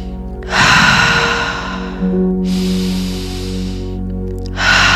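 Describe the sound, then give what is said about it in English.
Slow, deep breathing during a guided relaxation exercise: air drawn in through the nose, then let out through the mouth. Long, airy inhales and exhales follow one another with no talking, and a fresh inhale begins near the end. “we're just going to continually breathe in through the nose and out through the mouth.”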